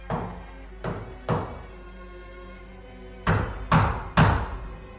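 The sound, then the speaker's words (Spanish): Knocking on the door of a shop stocked with coffins, echoing through to the kitchen: six sharp knocks in two groups of three, separated by a short pause. “Alguien golpeaba la puerta. Los ecos llegaron hasta la cocina”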